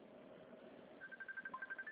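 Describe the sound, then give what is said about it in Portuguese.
A phone rings with a quick run of short, high, evenly spaced beeps that starts midway through and continues to the end over a low background hum. “Quem tá me ligando?”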